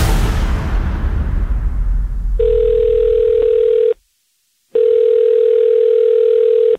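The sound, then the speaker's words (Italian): A telephone tone on an outgoing call: two steady, single-pitched beeps separated by a short silence, coming after a fading burst of rushing noise. “chiamalo subito. Chiama Mazzoli. Subito.”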